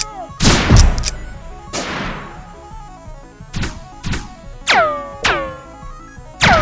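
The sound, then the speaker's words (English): Energy blasts strike in a sci-fi battle against deflector shields: many sharp, loud impact bursts at irregular intervals, several trailing off in descending ringing tones, with no voices. “Whoa! Energy blast! It's slowing me down!”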